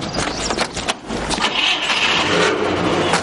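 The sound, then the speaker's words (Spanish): Car engines start up and pull away, a mid-pitched engine drone with a few uneven surges early on, then a steadier, sustained hum as the vehicles drive off. “De nuevo los coches se ponen en marcha, atraviesan un puente y el autobús va tras ellos.”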